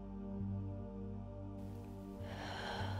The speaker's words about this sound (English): let's just take a second and take a deep breath.